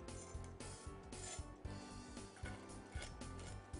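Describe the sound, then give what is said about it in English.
A knife spreading a filling onto sandwich bread makes steady soft scraping, broken by a few light clinks of the utensil. “So I'm going to add some of that to the sandwich. I'm going to spread that on my bread.”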